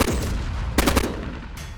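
Machine gun fired from a helicopter at night over a forest: a short burst of a few sharp, rapid shots in under half a second over a steady low rumble.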